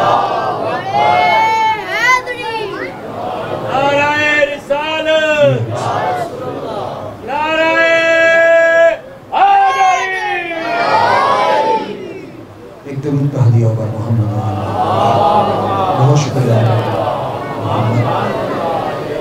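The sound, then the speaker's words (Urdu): Crowd at a packed religious gathering shouting the takbir slogan, several loud, chanted bursts of many voices in unison with short gaps between them, followed by a longer, looser swell of crowd voices. “نعرہ تکبیر”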